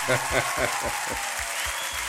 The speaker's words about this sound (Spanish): Don Marcelo, el aplauso para usted.